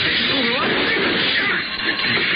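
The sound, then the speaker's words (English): A plate glass window smashed with a bottle gives a loud, continuous crash of breaking glass that holds steady for the whole stretch. “Ever break a plate glass window? Well, I did. That bottle.”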